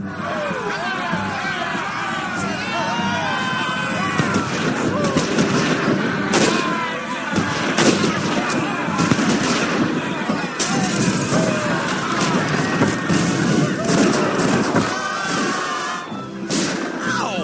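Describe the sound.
Blank rounds fire during a staged Civil War battle in a small town: many sharp shots and thuds ring out amid constant shouting and crowd babble.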